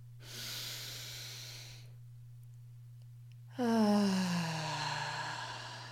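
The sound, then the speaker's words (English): A deep breath drawn in during a guided breathing exercise, a soft hissing inhale lasting over a second, then after a pause a louder voiced exhale with falling pitch, all over a steady low hum. “Let's go one more inhale in.”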